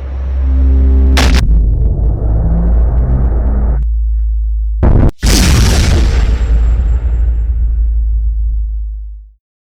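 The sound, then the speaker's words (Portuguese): A sound effect for the Earth exploding into countless pieces, made for an audio drama: a sharp crack opens a loud, deep, roaring rumble, which cuts off briefly. A second blast then swells up and slowly fades away. “Em uma fração de segundos depois, a Terra explodiu em zilhões de pedaços.”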